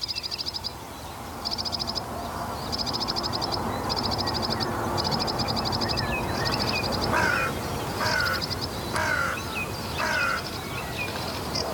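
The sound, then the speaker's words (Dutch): A crow caws near a small boat in a reedy wetland. Several harsh caws come in the second half over a constant bed of birdsong and rapid, high, repeated trills. “die kraai komt even kijken wat die mensen in het bootje hier aan het doen zijn”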